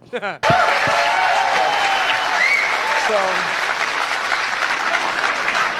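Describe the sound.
A crowd at a Donald Trump speech bursts into loud applause after a brief voice at the start, the dense clapping holding steady for several seconds before easing slightly toward the end.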